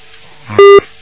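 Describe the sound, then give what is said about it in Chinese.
A single short, loud electronic beep on a telephone line during a call-in: one steady mid-pitched tone with bright overtones, lasting a fraction of a second, with a faint low hum just before it. “你再嘟嘟嘟的话，我就挂电话了啊！”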